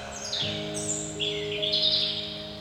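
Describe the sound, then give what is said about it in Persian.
Birdsong by a window: a few high, bright chirps and short trills rise over a steady low tonal hum and continue throughout. “مرغی کنار پنجره می خواند چه چه چه چه”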